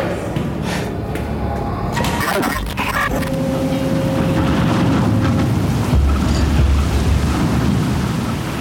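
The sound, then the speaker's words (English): Steady rumble of a ferry crossing the water to Staten Island, with a loud, constant mix of engine drone, water wash and wind buffeting throughout. “I'm riding the ferry back to Staten Island.”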